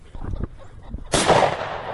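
One loud shotgun blast goes off during a bird hunt with a pointing dog, cracking sharply and then fading in a long tail after a stretch of quieter rustling.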